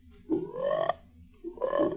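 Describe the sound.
Frogs croaking in reply to a flute: two throaty, buzzing croaks separated by a short pause, each with a rough rasping texture, moderately loud with nothing else in the background.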